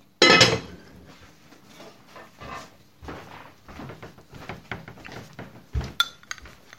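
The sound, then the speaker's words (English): A metal lid is set back onto a cooking pot of mushrooms with one sharp, loud clank, followed by a few softer clinks and knocks of kitchenware. “Let me go back to the pot. There's a bit. Okay. All right. Pop the lid back on.”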